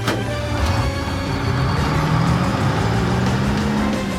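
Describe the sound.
The engine of a cartoon truck driving through city streets, a loud, steady motor drone whose low pitch climbs slowly as it gathers speed. No talk.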